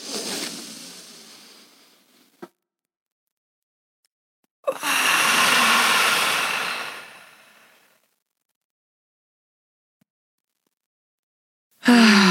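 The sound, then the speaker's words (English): A group takes a deep breath together: a breathy inhale, a short click, then silence, followed by a long, loud exhale lasting about three seconds and another breath starting at the very end. “Do a deep breath. Yeah. Oh my God. Let's, okay, all together.”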